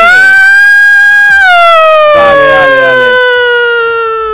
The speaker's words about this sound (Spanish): Sí, pero esa no es. No. No. Esa como de policía. No, esa es de ambulancia. ¿Es ambulancia? Esa es de ambulancia de Cruz Roja de toda la vida.